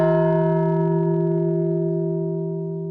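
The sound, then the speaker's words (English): A single sad-sounding dong sound effect rings like a struck bell, a steady harmonic tone that sustains alone for about three seconds while slowly fading. “A bit loud, that dong. You can actually hear the things in the background with that dong, can't you?”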